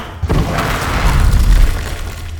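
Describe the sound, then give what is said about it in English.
A training dummy explodes from a blast of power, with a sudden heavy boom followed by a deep, rumbling roar and crackling debris that stays loud before easing off slightly at the end. “Ah! Holy shit! The fucking thing just exploded.”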